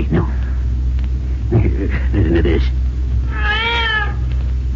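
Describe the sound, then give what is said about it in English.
A cat meows once in a room, a clear arched cry after a few seconds of talk. Male voices speak first over a steady low hum. “Oh, see, Cisco, Pancho hear that cat now.”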